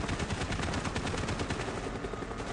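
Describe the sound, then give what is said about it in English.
Dense, continuous gunfire from a video game, with rapid overlapping shots forming one loud, unbroken barrage. “Okay, see, I could do this part of the game. Oh, now you have to shoot.”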